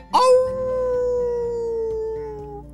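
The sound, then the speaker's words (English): A dingo howls nearby in one loud, drawn-out cry that starts abruptly, holds a steady tone for over two seconds, then eases slightly lower as it fades. “sound of a dingo nearby really scared him”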